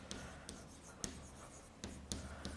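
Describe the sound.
Writing on a board during a physics lecture about quarks: about six sharp scratching strokes and taps, moderately loud and spaced irregularly, with no voices.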